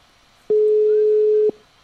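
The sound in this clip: One ringback tone of an outgoing telephone call: a single steady, mid-pitched beep lasting about one second, sounding alone against faint line hiss.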